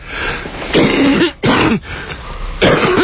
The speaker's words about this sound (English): excuse me for coughing into the phone. Coughing into the mic.